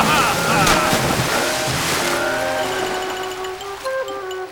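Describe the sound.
A car crash-landing into the sea in an animated story, with splashing and rushing water: a loud, continuous broad wash of surf and wind-like noise that gradually eases, with faint tonal sounds underneath.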